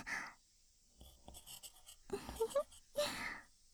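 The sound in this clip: Pen writing on paper in soft, scratchy strokes that come in a few separate bursts with short pauses, quiet and close.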